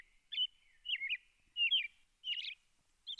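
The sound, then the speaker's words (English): A robin sings a series of short, bright warbled phrases, five in all, evenly spaced with quiet gaps between them and the last one cut off. The song is faint and heard alone against a silent background. “Koyukon elders also know what the robin says when it's singing. Listen to the song.”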